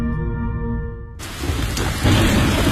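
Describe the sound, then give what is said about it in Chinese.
Thunderstorm rain hisses steadily across the whole spectrum, with deep rumbling thunder underneath that swells louder toward the end, following a brief quieter tonal opening. “北京人民广播电台温情提示：面对雷雨季节，应增强安全防范意识，出门前关好门窗，遇到雷雨不要在树下避雨”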